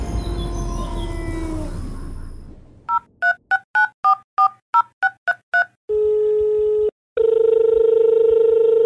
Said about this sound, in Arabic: دعونا نتصل بضيفنا جمال.